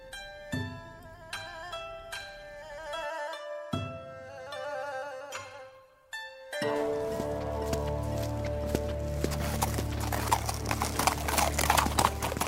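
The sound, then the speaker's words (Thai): Horse hooves clip-clopping as the horse hurries along, a quick run of hoofbeats inside a dense, continuous wash of sound that follows bright tonal music notes. “พระทางซัมจั๋งก็ขับม้ารีบเดิน บัดเดียวก็มาถึงเนินเขาซึ่งดูน่ากลัวยิ่งนัก”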